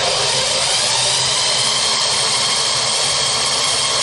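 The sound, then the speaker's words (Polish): A drill bores through hard plastic with a loud, steady, high whine that holds without pause and with no talk over it. “udało już mi się przez plastik przewiercić”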